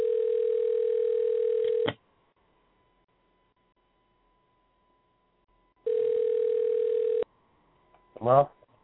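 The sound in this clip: Telephone ringback tone while calling a phone back: two steady buzzing rings, the first about two seconds and the second shorter, separated by a long silence, followed by a brief voice at the end.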